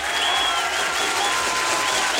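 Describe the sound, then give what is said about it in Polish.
Audience applause for the people of Szczecin: a dense, steady wash of many hands clapping that holds at one even, fairly loud level throughout, with no speech over it. “Brawo! To są brawa też dla was. To są brawa dla was, Szczecinian”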